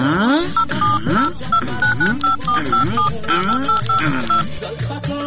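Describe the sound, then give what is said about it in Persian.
Telephone keypad dialing tones as someone dials a number to call a relative: a quick run of many short, steady beeps at a fixed pitch, heard over a voice talking underneath. “تو باش که برش یک زنگ بزنم.”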